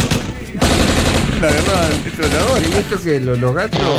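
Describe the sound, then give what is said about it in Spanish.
Rapid gunfire from a small-calibre gun during a family brawl, heard as a dense, continuous, loud stream of shots with raised, wavering voices mixed in throughout. “eso fue como un arma chiquita, un arma de calibre menor”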